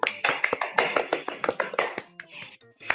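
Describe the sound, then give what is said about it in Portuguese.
Hand clapping by hosts applauding a listener: a quick, irregular run of many sharp claps that thins out near the end. “Ó, Vinícius, a gente aqui, ó, vamos bater palma para ele.”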